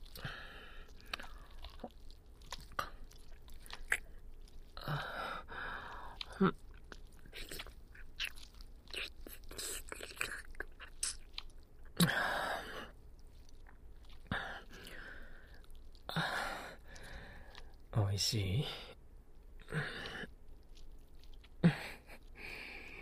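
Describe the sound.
Chewing on a bite of food fed to someone: many short, moist, crunchy bursts in an irregular rhythm, some sharper and louder than others, with no talk.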